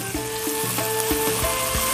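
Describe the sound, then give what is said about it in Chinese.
Onions stir-fried in seasoned oil until their edges are slightly charred, with dried chilies added, make a steady, loud crackling sizzle that continues throughout without talk. “用这个料油去炒洋葱，把洋葱呢也要把它煸到什么程度呢？哎，上一点小焦边的状态，来把这干辣椒下去。”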